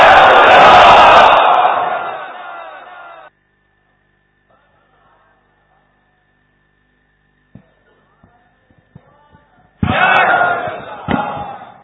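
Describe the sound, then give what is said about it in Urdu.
A crowd at a religious gathering chanting the slogan Ya Rasool Allah: a loud burst of massed shouting voices that fades out, a long quiet gap with a few faint clicks, then a second loud massed shout. “پکارو یا رسول اللہ یا نعرہ رسالت.”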